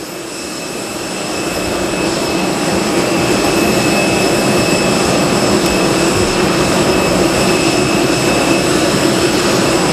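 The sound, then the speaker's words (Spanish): A jet airliner's engines run on the runway just before it taxis for takeoff. A loud, steady roar with a high, thin whine builds over the first couple of seconds and then holds constant, with no talk. “que recogerá de un momento a otro su escalerilla y comenzará a rodar por esa pista para despegar enseguida, en breve.”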